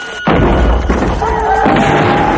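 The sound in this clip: A cannon shot in a 1986 colonial-era adventure drama, fired by soldiers on the hillsides near a mission by a river: a deep boom bursts in, then a loud, sustained rumbling roar.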